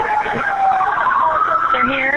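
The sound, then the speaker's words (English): A police siren wails as officers arrive, its tone sweeping up and down in a continuous, wavering pattern that lasts the whole moment. “You can hear the police arriving in the background,”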